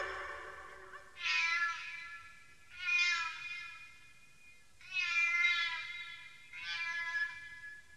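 A cat meows four times in a row, each call drawn out and tonal with a bright, nasal quality, separated by short pauses and heard on its own.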